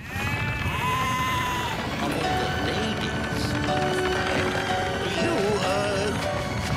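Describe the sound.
A flock of sheep escapes from a lorry down its back ramp, bleating loudly in many overlapping calls that keep up without pause throughout.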